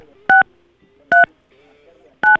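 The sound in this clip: Touch-tone telephone dialing: three short, steady dual-tone beeps spaced roughly a second apart, each loud and clean against near silence with only a faint background murmur between them.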